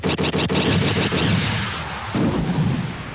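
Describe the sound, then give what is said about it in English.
Sci-fi blaster shots fired at starfighters in a space battle: a rapid volley of several sharp, booming bursts, followed by a sustained low rumbling roar. “shots went out. The first one hit a TIE fighter's solar panel, ricocheted off, and hit another fighter.”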